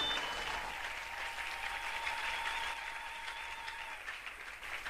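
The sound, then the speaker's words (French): An audience applauds during a church service, producing continuous, even clapping at a moderate level that sustains for about five seconds without a clear break. “Encore une fois, acclamer notre Dieu.”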